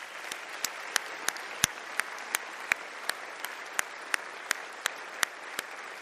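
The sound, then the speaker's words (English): A church audience applauds to welcome new members. Steady, even clapping carries throughout, with a few sharper individual claps standing out at regular moments. “Now let me ask all of you guys whose names I just called to stand, and let's welcome them together.”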